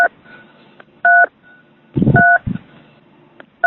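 Telephone keypad tones beep during a scam phone call: a few short, steady two-tone beeps separated by pauses, with brief low thumps and rustling between them and no speech.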